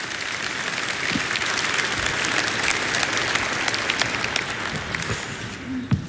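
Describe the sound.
An audience applauds to welcome a guest, a pastor invited to join the host for a conversation, with a dense, steady clapping that holds at an even level for several seconds.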